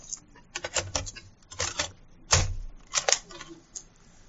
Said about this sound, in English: Let me just turn this tape over.